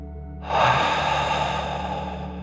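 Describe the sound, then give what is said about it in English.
A deep breath goes out through the mouth during a children's mindful breathing exercise: a loud, airy rush that starts suddenly and slowly fades over a low, steady background hum. “breathe out through your mouth, pretending you are breathing fire. Ready? Take a deep breath in and out.”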